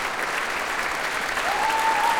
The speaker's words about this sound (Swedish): allt så som applådrundan går runt så ställer sig faktiskt fler och fler upp här i Berwaldhallen och applåderar Sveriges Radios symfoniorkester